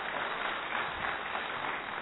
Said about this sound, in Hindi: सवाल पूछूं, किसके लिए ताली बजा रहे हैं, छोटा भीम के लिए या छोटू के लिए, मम्मी के लिए, खुद के लिए या मेरे लिए?